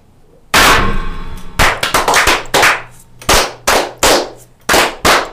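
A Masonic toast 'fire' performed by a group all together: many sharp, loud bangs and knocks in a quick, uneven rhythm. The first rings out longest, and the rest come as clustered strikes that decay fast.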